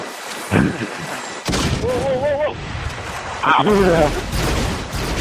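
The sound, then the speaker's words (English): Grenade launcher shots in a video game land as a few sharp, booming bursts amid ongoing talking voices. “Just give a demonstration of what a regular shot off of a grenade launcher looks like.”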